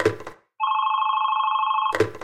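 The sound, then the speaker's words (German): A telephone rings once with a steady, loud electronic trill that lasts just over a second, set between short noisy bursts of other sound before and after. “und ständig klingelt das Telefon”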